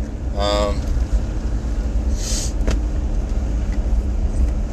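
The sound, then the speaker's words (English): A car driving along gives off a steady, low rumble of engine and road noise with no break. A brief tonal whine rises early on, and a short hiss comes about halfway through. “Driving home from work today.”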